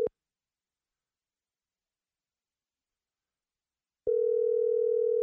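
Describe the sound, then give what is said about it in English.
Telephone ringing on a call nobody answers, heard as the caller's steady electronic ring tone. One ring ends right at the start, then after about four seconds of silence the next ring begins and holds to the end. “One ring. Two rings. Three rings.”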